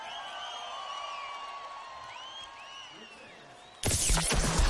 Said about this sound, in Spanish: ¡Felicidades, Panteón! Muchas gracias, un aplauso, por favor.